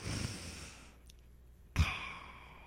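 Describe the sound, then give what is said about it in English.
Deep breath: a loud, airy sigh of breath, a quiet pause, then a short, sharp breath sound that trails off softly. “First off, take a deep breath with me, okay?”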